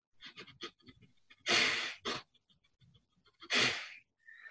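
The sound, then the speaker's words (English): Rapid breathing through the nose, with a few loud, noisy bursts of breath standing out among many fainter, short puffs in an uneven rhythm, with no talk. “just breathe as fast as you can through your nose like this. Well, I've trained it so I can go for a long time. Most people, when you do that, they'll do this.”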